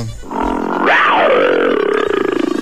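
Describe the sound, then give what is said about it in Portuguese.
A human voice imitating a lion's roar: one long, loud, rough growl that swells, sweeps sharply up in pitch, then slides back down and trails off in a buzzing, pulsing rumble. “Ela tá te pedindo um rugido.”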